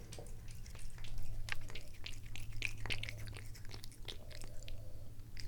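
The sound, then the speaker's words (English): A cat laps up bathwater with a rapid run of many small, wet clicks over a low steady hum. “That's the sound of the cat drinking the bathwater.”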